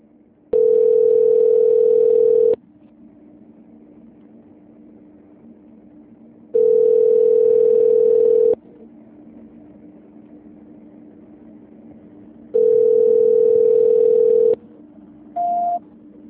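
A telephone line tone plays while a call is transferred: three long, steady, mid-pitched tones, each about two seconds, separated by pauses of a few seconds over a low hum, and then a brief higher beep.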